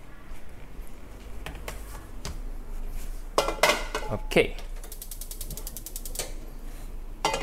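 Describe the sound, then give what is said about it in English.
Cheap non-stick pan being set down on a gas stovetop, with faint metallic clatters and knocks, a few sharper bangs midway, then a rapid run of regular ticking clicks. “I'm gonna place it over a flame. So let me walk to my stovetop.”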